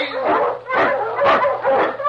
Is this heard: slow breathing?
no